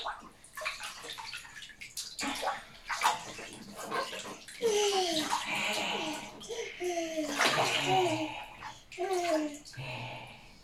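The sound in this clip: Water splashing and sloshing while a baby is bathed in a tub: irregular soft splashes and gurgles throughout, with people talking over them.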